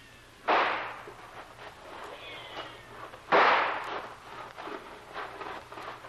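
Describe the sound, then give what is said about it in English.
Two gunshots fired as a signal to charge, two sharp cracks a few seconds apart, each with a quick decaying tail, over faint background hiss. “you signal a charge. Two fast shots and we all go.”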